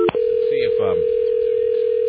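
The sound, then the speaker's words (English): A telephone dial tone hums while someone places a call. The steady, mid-pitched tone runs unbroken through the whole clip, with a brief burst of voice over it partway through. “see if Dave Zinn answers the phone. He doesn't.”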